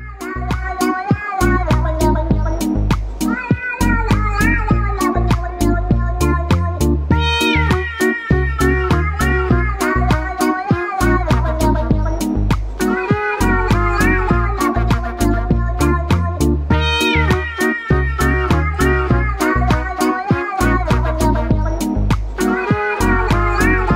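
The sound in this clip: A cat meows over and over, many loud, tonal calls repeating in a steady, rhythmic pattern that runs without pause through the whole stretch.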